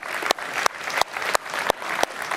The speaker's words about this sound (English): So give yourselves a round of applause.